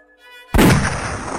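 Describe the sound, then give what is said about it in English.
A single rifle shot in the night air: one sharp, loud blast followed by a long, fading rumble, preceded by a faint steady tone. “A shot rang out in the night air.”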